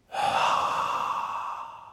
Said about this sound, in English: Let's breathe slowly in through our noses. Then slowly breathe out through our mouths.